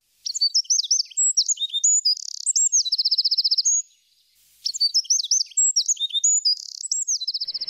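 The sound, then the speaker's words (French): A Eurasian wren sings loud, high, rapid song made of quick chirps and buzzing trills. Two long bouts are separated by a short pause, with no other sound. “Certains petits passereaux ont des chants très puissants, je pense aux troglodytes mignons.”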